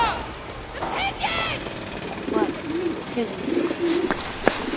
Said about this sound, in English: pigeon!